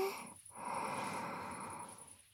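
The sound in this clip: A single slow, deep breath drawn in during a guided relaxation exercise: a soft, airy inhalation that swells after a brief pause and holds for over a second, quiet against a faint steady hum.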